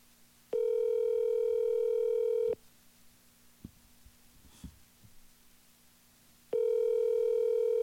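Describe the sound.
Ringback tone on an outgoing telephone call: two long, steady buzzing rings with quiet background noise in the gap between them.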